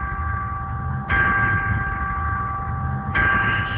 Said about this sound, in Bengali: আমরা আরেকটি বিরতির ঘন্টা শুনতে পেলাম।